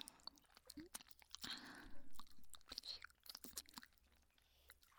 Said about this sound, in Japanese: 気持ちいい感じでしょうか。こうやって舌で転がして、